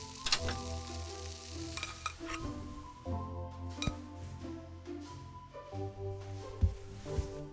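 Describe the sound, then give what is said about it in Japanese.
Bacon and eggs fry in a pan for breakfast, with a continuous soft sizzle broken by several light clinks and scrapes of a utensil against the pan. “朝ごはんといえばベーコンエッグだよね。まあベーコンエッグしか作れないんだけどね。”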